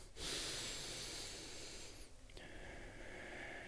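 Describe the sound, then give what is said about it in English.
Deep, slow breathing: two long, airy breaths in a row, the first lasting about two seconds and the second following after a short pause, soft and steady with no talking. “So take a deep breath in probably for like maybe a 3 count, and then a deep breath out for like a 4 count.”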